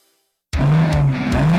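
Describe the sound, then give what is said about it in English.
A race car roars at Alaska Raceway Park, a track hosting NASCAR and NHRA racing. Silence breaks into an abrupt, loud, sustained engine blast with a steady low drone running through it. “Feel the thunder of NASCAR, the raw power of NHRA, and wheel-to-wheel racing that hits you right in the chest.”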